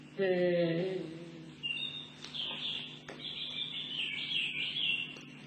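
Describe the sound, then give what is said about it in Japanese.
A European robin sings in high, thin warbling trills and chirps. A voice is heard briefly at the start before the song continues alone. “これがロビンです。ヨーロッパコマドリ。姿はとてもコマドリによく似ています。”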